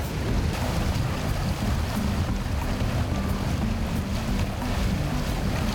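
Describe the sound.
Cold wind blows steadily outdoors near a fishing boat heading out to catch mullet, a constant rushing noise with a low rumble underneath and no pauses.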